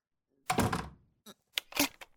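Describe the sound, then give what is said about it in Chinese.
A door is shut with a heavy, broad thunk, then a few short, sharp clicks and knocks follow as it is locked. No voices are heard. “你怎么把门给锁起来了？开门！你把门给我打开！”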